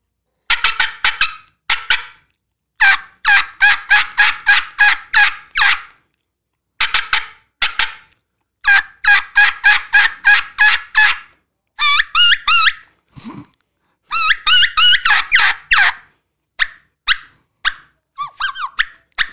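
A turkey call imitates a gobbling turkey perched on a tree limb: many loud bursts of rapid, chattering yelps repeat in a steady rhythm with short pauses, and a few sparser clucks come toward the end.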